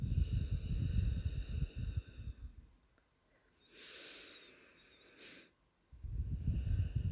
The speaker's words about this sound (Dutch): Adem in. En uit, weer door je neus.